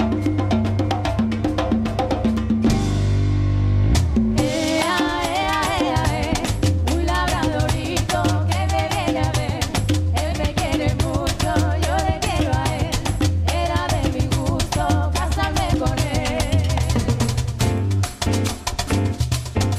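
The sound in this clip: A band plays a live cover of a classic pop song. A sustained opening chord gives way after about four seconds to the full band, with a steady driving beat and prominent bass that stay loud and dense throughout.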